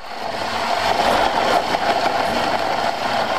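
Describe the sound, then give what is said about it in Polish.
Loud, steady whirring grind from a pedal-powered bicycle blender crushing ice cubes for a banana smoothie in Guatemala, its gear slipping. The churning drone runs unbroken from start to finish with no voices. “Trochę zębatka przeskakuje, ale jak słychać, blender się kręci, zaraz z kostek lodu będzie pulpa”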